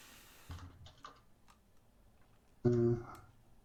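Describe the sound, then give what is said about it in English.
Faint clicks of typing on a computer keyboard, a few scattered keystrokes, followed by a short, louder tonal burst near the end. “Helps if I type it correctly.”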